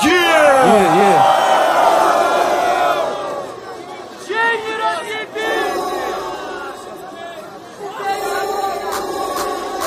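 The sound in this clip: Loud crowd at a rap battle cheering, whooping and shouting continuously, with sharp rising yells at the start, then a dip and renewed bursts of cheering and scattered shouts.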